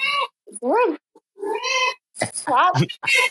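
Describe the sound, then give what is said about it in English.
A cat meowing twice in wavering, up-and-down cries, interleaved with a person talking. “my cat is being crazy right now. We have a special guest appearance.”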